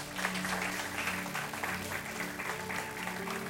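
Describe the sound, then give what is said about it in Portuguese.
An audience claps during a lively church worship service, keeping up a steady, dense applause over low sustained music tones for about three and a half seconds. “E dê um forte aplauso ao Senhor.”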